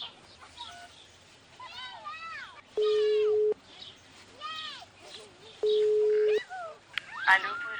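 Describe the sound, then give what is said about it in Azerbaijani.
A telephone is dialed to place a call, producing two long, steady mid-pitched tones separated by a pause, with voices heard between and around them. “Zəng vurum, vurum.”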